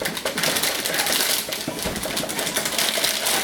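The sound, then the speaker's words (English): Packaging of an Intel Core 5 processor being unwrapped: continuous loud crinkling and rustling, with dense irregular crackles and a few sharper scrapes, and no voices. “Now the first stage is to install the processor onto the motherboard, which means we'll unwrap that and then we'll unwrap them.”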